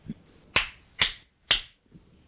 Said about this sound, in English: So what I want you to do right now is clap your hands 3 times.